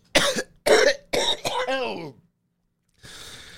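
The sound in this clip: Coughing from a man who has just smoked a joint of Super Silver Haze: a rapid run of harsh, loud coughs, then a strained, voiced groan, followed by silence and a faint hiss.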